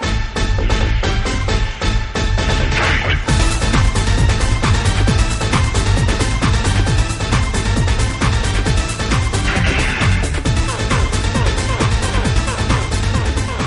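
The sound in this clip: A movie's opening theme song plays at full force from the first moment, dense and loud, with a driving, steady beat and heavy bass that never lets up.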